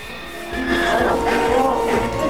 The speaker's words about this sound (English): The horse thrashes about in the opposite enclosure.